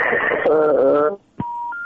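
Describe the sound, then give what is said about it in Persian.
Phone line tones as a listener's call drops during a radio phone-in: a voice cuts off into brief silence, a click follows, then a steady electronic tone that steps up to a higher pitch. “تماس از اینا هم قطع شد متاسفانه متاسفانه که از چند شنونده ما تماسشان قطع شد”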